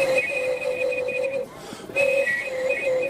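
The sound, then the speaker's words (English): Bamboo reed flute with eight pipes being blown: breathy, sustained whistling tones at a clear mid-high pitch, held in two phrases with a brief pause between them. “In this flute here, we've got a whole cluster of notes. They're made out of bamboo reeds. I don't know what the technical term for them is. I can give it a little blow.”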